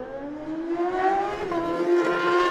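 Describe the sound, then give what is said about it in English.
A BMW racing motorcycle accelerates away from the start on the TT course. Its loud engine note climbs in pitch, dips briefly, then climbs again as it revs hard. “Jonathan Getze, who set his fastest ever time at the TT course, he goes away next on the Optimark Racing BMW.”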